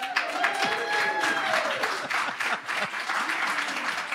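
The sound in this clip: A live audience applauding at a conference on the Bard College campus in Annandale-on-Hudson, New York, a full burst of many hands clapping, dense and steady for about four seconds.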